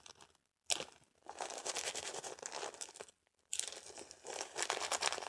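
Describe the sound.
Tape crinkling and tearing as a dog is taped up after a touch of powder, heard as two long stretches of crackly rustling separated by a short pause, with no voices.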